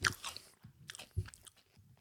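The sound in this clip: Someone bites into and chews food, producing a few crisp, crunchy bites with softer chewing in between, all fairly quiet.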